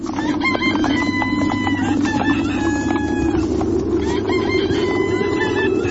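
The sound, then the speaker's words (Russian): Roosters crowing at daybreak near a village, several overlapping crows rising over a steady low background rumble that continues throughout. “Пели петухи”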